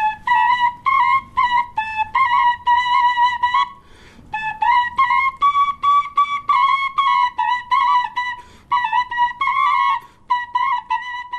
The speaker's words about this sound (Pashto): غبرګې شپیلۍ په یوه وخت ږغوي تر څو مینوال یې زیات خوند ورڅخه واخلي